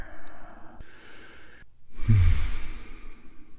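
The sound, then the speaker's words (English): A deep breath drawn into the belly and then let out, a loud, airy rush of breath that swells suddenly and then trails off, heard alone with no talking. “just take a deep breath, inhale. Inhale into your belly, expand your rib cage, and let it out.”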